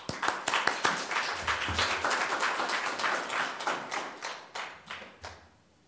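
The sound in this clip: Applause from a lecture audience welcoming a speaker: many crisp individual hand claps in quick succession, holding steady before thinning and fading out near the end.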